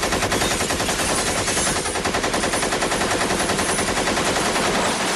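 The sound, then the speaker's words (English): Rapid automatic gunfire from an AK-47 rattles in one unbroken, loud burst that fills the whole clip, with dense, evenly spaced shots and no pauses. “you said it was empty. That gun was, not my other one. All right, put that AK-47 down, right?”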